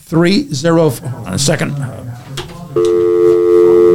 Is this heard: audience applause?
no